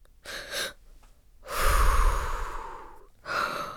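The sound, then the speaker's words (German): Deep breathing in and out during a doctor's stethoscope check of a patient with a heavy cold and fever: a short breath, then a long, loud, rushing breath, then another breath begins, with no talk. “Atme bitte tief ein und aus.”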